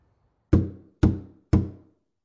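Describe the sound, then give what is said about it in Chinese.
Three heavy, evenly spaced knocks on a door, each a loud, low thud with a short resonant decay, heard alone with no voices. “砰砰的敲门声过了之后，屋里边亮灯了，丁国华的声音听起来很不耐烦。”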